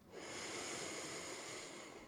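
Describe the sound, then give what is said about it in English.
One long, deep inhalation through the nose during a guided breathing exercise, a soft, airy, steady rush of air lasting about two seconds, heard alone. “taking a huge breath in through the nose”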